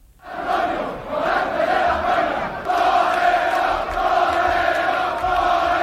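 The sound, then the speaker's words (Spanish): Loud, continuous crowd cheering and shouting as a matador is carried on shoulders through the streets after a Corpus Christi bullfight. The roar swells in at the start and surges again midway, dense and unbroken. “Este es el sonido de anoche, camino el diestro a hombros del Hotel Colón.”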